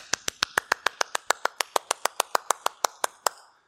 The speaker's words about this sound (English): I don't have the neat little drum that he uses, but if I clap like this,